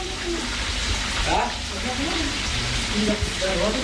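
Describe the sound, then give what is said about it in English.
Food sizzles and fries in a home kitchen in Peshawar as a steady, dense hiss, while faint voices talk underneath. “I'm at a relative's house. I'm spending the night here. And you can hear the food cooking here in the kitchen.”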